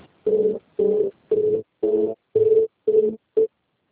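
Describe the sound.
Telephone voicemail tones: seven evenly spaced, low-pitched buzzy beeps in a steady rhythm, the last one clipped short, followed by silence.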